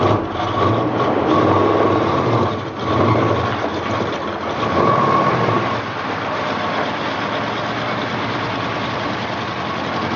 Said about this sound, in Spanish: Él se monta en un todoterreno y se marcha.